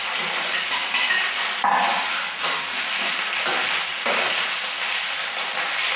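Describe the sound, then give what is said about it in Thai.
Mushrooms stir-frying in a pan give a loud, continuous sizzle with crackling spatter, broken by a few scraping stirs. No voices are heard. “เวลาผัดเนี่ยระวังด้วยนะคะเพราะว่ากระเด็น”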